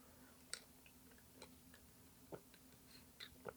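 Faint, sticky mouth sounds of someone chewing while tasting honey: a few soft, irregular smacks and clicks of lips and tongue over a low steady background hum.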